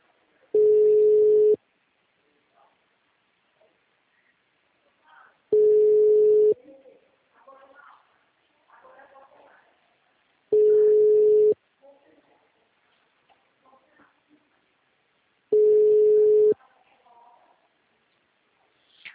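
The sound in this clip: An engaged telephone line gives a busy signal: four steady single-pitch beeps, each about a second long and evenly spaced roughly five seconds apart, with faint scattered sounds in the gaps.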